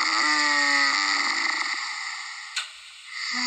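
A person snoring, played back from a phone held up to a microphone: one long, droning, buzzy snore that gradually fades, a brief click, then the next snore starting at the end.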